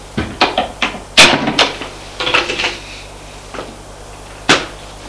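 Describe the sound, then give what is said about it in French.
A cupboard door being opened gives a string of sharp wooden clicks, knocks and small clatters, bunched in the first two seconds, then sparser, with one loud knock near the end. “La mère va ouvrir le placard.”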